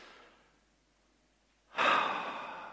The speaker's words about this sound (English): just everyone just take a deep breath.